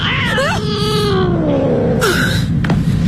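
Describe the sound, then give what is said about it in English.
A cat meows in a couple of drawn-out, wavering cries whose pitch slides downward, loud over a steady low rumble. “Okay, it's just a cat. Nothing to worry about.”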